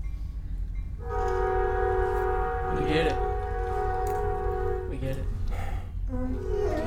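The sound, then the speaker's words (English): A train horn blares as a train passes: a loud, sustained multi-tone chord holding for several seconds, then a shorter second blast, over the steady heavy rumble of the rolling train. “Sometimes to the location, we have to stop and wait for the train to pass.”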